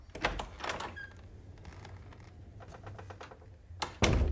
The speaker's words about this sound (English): The mother waits in the hallway by the door to the children's room, and Rose locks it.